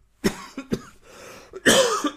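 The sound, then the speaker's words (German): A coughing fit of several harsh, irregular coughs, with some softer throat sounds between them, ending in a louder, drawn-out hacking burst. “Gleich mal schön Hustenanfall deswegen.”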